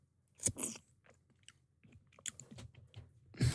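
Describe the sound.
Chewing and wet mouth noises of someone eating school-style sausage soup with cream, with a few faint crunchy bites and smacks scattered irregularly and no talk.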